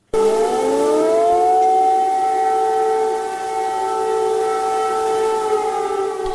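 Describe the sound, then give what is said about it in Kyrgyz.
Air raid sirens wail in Kyiv, warning of a missile threat. The pitch climbs at the start and then holds as a loud, steady, droning note with overlapping tones, continuing unbroken for several seconds. “Биринчи декабрдын таңында баш калаа Киевде ракеталык коркунуч тууралуу эскерткен сиреналар кайрадан жаңырды.”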